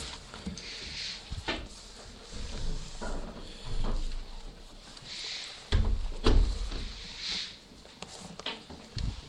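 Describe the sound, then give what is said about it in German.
Windows are closed in a church during a service, giving a few scattered thumps and soft knocking sounds. Two heavier thuds land close together near the end. “Wir können jetzt wieder die Fenster schließen”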